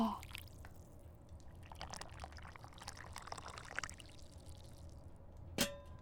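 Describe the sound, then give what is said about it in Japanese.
Hot water pours into a cup in a steady, hissing stream that runs for several seconds, ending with a short metallic clink. “じゃあ、お湯をカップに移し替えて。”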